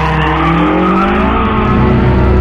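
A car speeds away at high speed along a town high street, its engine roaring loudly and steadily while the tires screech.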